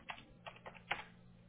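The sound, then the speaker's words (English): Faint typing on a computer keyboard as an answer is entered a second time, with about four sparse key clicks spaced irregularly and quiet gaps between them. “Okay, I have to type it in twice.”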